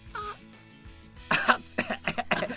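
Coughing after choking: a fit of several harsh, rapid coughs in quick succession, preceded by a quieter throaty vocal sound.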